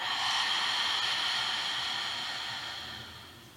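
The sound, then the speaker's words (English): One long, steady breath sounds as a continuous airy hiss. It stays even for most of its length, then slowly fades toward the end. “One more time, big breath in. Clear it out.”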